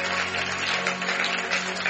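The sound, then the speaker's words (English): A church audience claps together in a steady, continuous stream of applause, moderately loud and even, with a low hum running beneath it. “Now give the Lord a big, big. Is that how you clap when you have been blessed?”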